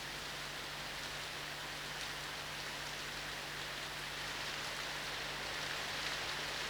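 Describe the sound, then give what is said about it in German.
Steady rain falls by a roadside, an even, unbroken hiss of drops across the whole stretch, with a faint low hum running constantly underneath. “Der Regen am Straßenrand.”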